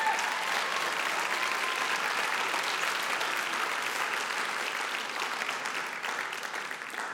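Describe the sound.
An audience applauds as a doctor is welcomed onto the stage at a morning university gathering. The clapping is loud, thick and sustained, easing slightly toward the end, with no voices over it.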